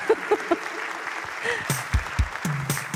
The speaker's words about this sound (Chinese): 感谢大家掌声哦。